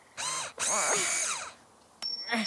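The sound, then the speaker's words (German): A power screwdriver struggling to drive a stubborn screw: two long, high whirring bursts whose whine wavers up and down in pitch, then a pause and a short final burst. “Seht ihr, da, schon wieder. Diese Schraube möchte partout nicht eingeschraubt werden.”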